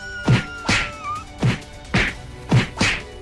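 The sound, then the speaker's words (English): Sharp thwacking impacts of a spinning roundhouse kick landing on an animal's muzzle in a fight. A quick series of several loud whacks with short ringing tails, one softer hit among them, and no voices. “Take a spinning roundhouse to the muzzle!”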